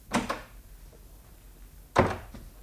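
A door being opened in an old house gives two hollow wooden thunks, one near the start and a louder one about two seconds later, with quiet in between.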